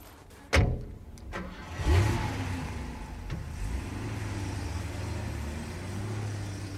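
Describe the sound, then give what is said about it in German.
A car engine starts: a few sharp knocks and clicks come first, then the engine cranks and catches with a short burst of revs before settling into a steady, low, fairly quiet idle hum. “Fahren wir jetzt zurück nach Paradise.”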